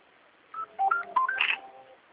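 Telephone keypad dialing tones, a quick run of several short, clean touch-tone beeps at shifting pitches, fairly faint and with no talk.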